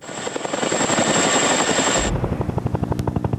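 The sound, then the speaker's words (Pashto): A NATO military helicopter flies over Afghanistan. A loud, steady engine whine gives way to a deep, rhythmic thudding of the rotor blades that keeps pulsing to the end. “لا هم د افغانستان په فضا د ناټو هلیکوپټر ګرځي.”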